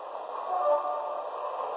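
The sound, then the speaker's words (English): A passenger train departing from a station gives a steady, unbroken hiss and rumble, continuous and even in loudness from start to end. “Now departing for Washington at track one. Train number 523.”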